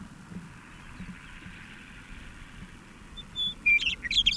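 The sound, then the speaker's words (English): Bird song of short, bright, high chirps in a quick irregular burst near the end, rising out of faint steady background noise. “This is the same bird with a much more polished sound.”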